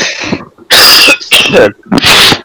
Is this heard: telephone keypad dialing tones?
no

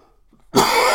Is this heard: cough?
yes

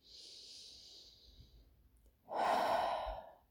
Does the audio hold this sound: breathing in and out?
yes

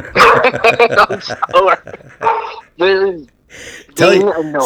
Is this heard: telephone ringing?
no

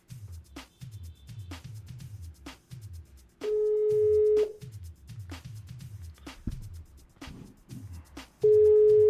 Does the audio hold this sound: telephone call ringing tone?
yes

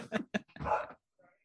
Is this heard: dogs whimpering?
yes

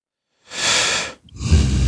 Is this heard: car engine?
no

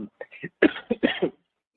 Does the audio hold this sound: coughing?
yes

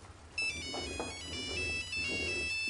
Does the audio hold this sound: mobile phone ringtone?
yes

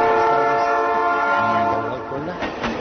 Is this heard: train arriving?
yes

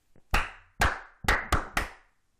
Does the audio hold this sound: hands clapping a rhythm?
yes

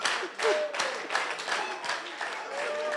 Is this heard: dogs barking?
no

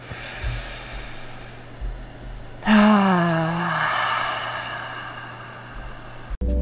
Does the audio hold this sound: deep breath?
yes

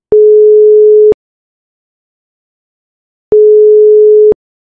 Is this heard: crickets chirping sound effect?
no

